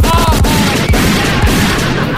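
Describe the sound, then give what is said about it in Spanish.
A burst of gunfire sound effect, loud and continuous, with repeated sharp cracks over a thick rumbling roar that runs for about two seconds. “Deme una ráfaga de balazo. Póngale.”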